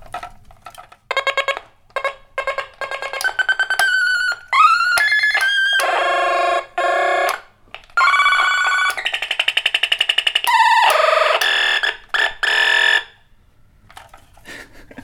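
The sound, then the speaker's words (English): An old toy laser gun fires many short electronic bursts of buzzing, warbling tones. Some sweep upward in pitch, with brief gaps between the loud blasts and no talk. “This is a really old, like, laser gun toy. It just makes the coolest sounds.”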